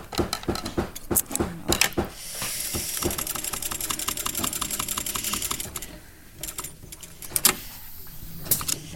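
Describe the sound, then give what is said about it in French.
Stitching sounds come from sewing the flap of an Origami S leather bag. A fast, even run of small ticks fills the middle, with scattered clicks and knocks before and after. “je suis en train de coudre le rabat de mon sac qui s'appelle l'origami S. Et donc voilà, là ici je suis en train de me positionner et là bah, je, je couds tout simplement le rabat.”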